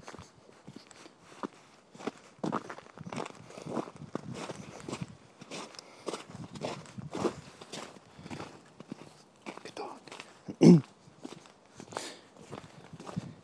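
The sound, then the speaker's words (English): Someone walking a dog passes by, with many steady footsteps that fall in an uneven, crunchy rhythm. One sharper, louder knock stands out near the end. “Anyway, just somebody walked past there, so I had to keep it quiet there, just, I guess, walking their dog.”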